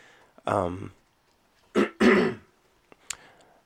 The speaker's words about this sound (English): sorry for all the coughing, by the way. I'm not sick or anything. It's just these fucking allergies.